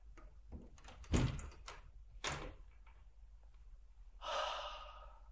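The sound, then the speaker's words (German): A window is opened at night, with the lights switched off after an air-raid all-clear. A few faint knocks and clatters come first, followed by a soft rushing swell of noise near the end. “Trotzdem müssen wir das Licht ausmachen, wenn du das Fenster öffnen willst.”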